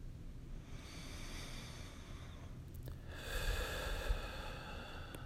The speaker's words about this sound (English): And just snuggle with me. Just take a deep breath.